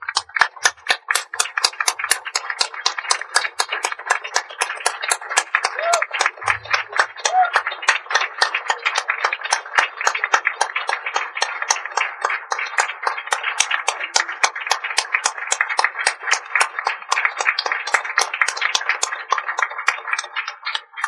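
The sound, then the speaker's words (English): Clapping as an audience stands to give an ovation of welcome to two honourees at an evening event: many sharp claps in a quick, steady rhythm, sustained for about twenty seconds. “Would you please stand to give them an ovation of welcome?”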